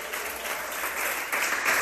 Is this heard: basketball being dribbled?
no